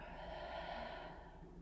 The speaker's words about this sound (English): Now release the thumb Breathe in through both nostrils and breathe out.